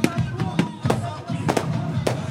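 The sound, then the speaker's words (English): A barrage of fireworks exploding over a street festival, with many sharp, loud bangs in quick irregular succession over a steady tonal background. “As a barrage of fireworks fill the sky and drown out the music”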